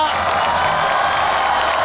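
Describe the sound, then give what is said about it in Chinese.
Audience applause at a Chinese New Year greeting show, a loud, dense and even clatter of many hands clapping that holds steady for about two seconds without voices. “我觉得好像掌声比我那个要热烈一点，是不是？”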